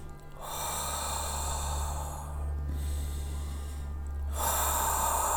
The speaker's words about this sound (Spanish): Y ahora empieza a respirar.